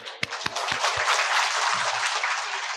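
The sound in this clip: Audience applause at a talk breaks out as a few separate sharp claps and then swells into dense, steady clapping from many hands that lasts a couple of seconds.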